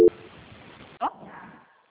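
A telephone call transfer tone on a bank's customer service line: a short steady beep at the very start, then the faint hiss of the open line with a brief click partway through.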